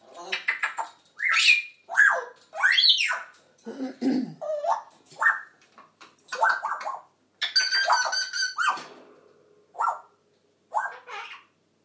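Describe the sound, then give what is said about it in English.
Three grey parrots chatter and squawk, trading many short whistles, babbling chatter and sharp, rising squawks. The calls come in quick bursts with brief quiet gaps between them. “parrots, because all three greys are chatting.”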